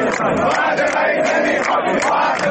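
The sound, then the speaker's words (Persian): Striking workers at Bahman Diesel in Qazvin chant protest slogans, many voices shouting together in unison. The chant pulses in a loud, rhythmic cadence that repeats across the whole stretch. “کارگران بهمن دیزل قزوین دست به اعتصاب زدند. اعتصابی همراه با شعارهای اعتراضی.”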